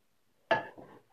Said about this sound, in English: And because I only have one pot with a lid that actually fits, I'm going to use that pot. It is about 1/2 gallon pot, so like 2 quart saucepan.